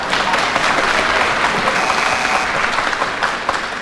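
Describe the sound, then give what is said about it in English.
Studio audience clapping at a panel game show, a loud, dense, steady round of applause that fills the whole stretch without a break. “the audience were clapping that excellent decision of mine”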